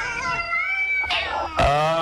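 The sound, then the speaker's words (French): Cats meowing indoors, a long wavering meow followed by two sharper, louder cries, with no talk over them. “Qu'est-ce que c'est, là, là? C'est des chats, voyons.”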